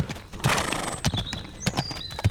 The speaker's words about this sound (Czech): Pojď, popoženem koně.